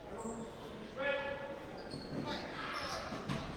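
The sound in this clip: A basketball is dribbled during a game, a few faint thuds of the bouncing ball under steady play-by-play commentary.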